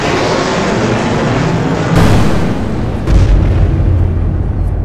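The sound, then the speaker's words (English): Missiles fire and explode as a giant robot blasts down at an armored suit, a dense, loud rumbling roar with two heavier booming bursts partway through. “Jason orders the Zord to move in, raising its hands and firing its missiles down into one of the suits.”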